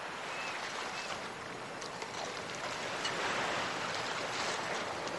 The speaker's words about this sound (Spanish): Lázaro y Reinaldo están en la playa.